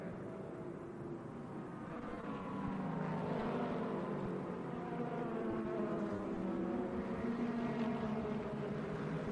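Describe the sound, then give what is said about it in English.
Race cars, an Aston Martin and a Ford, on the Mario Andretti straight. A sustained engine roar grows louder after a couple of seconds, with shifting tonal whines layered over a broad, continuous drone. “So watch for that Aston Martin coming through. He's already on the back of the Ford of Frederik Vervich as they go down the Mario Andretti straight for their first time.”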